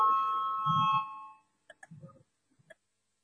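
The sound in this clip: An electric bell rings steadily in a parliamentary chamber to call members to a vote, a bright sustained tone that stops abruptly, followed by a few scattered clicks and knocks in near silence.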